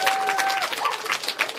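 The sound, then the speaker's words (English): A crowd of children clapping at a gathering in Mineral Point, with irregular overlapping claps and a few brief thin tones mixed in, at moderate volume and with no clear talking. “oh, they're clapping now. Yeah, there they are.”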